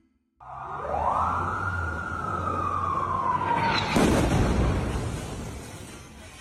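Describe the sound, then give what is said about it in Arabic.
Israeli bombardment near a hospital in western Gaza City at night: a long whistling tone rises, then slowly falls for about three seconds before one loud blast with a rough, rumbling decay. “هذا صوت قصف إسرائيلي في ليلة 23 أكتوبر لمحيط مستشفى القدس في غرب مدينة غزة.”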